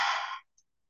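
One breath pushed out with the tongue stretched far out during a face-stretching relaxation exercise, a short breathy rush that fades out within half a second, then quiet.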